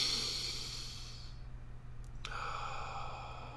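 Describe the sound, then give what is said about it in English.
Person taking a deep breath: a long, airy sigh that fades out, a short pause, then a second breath begins, breathy and fairly quiet. “So you take a breath, you're like, and then you do like a deep sigh.”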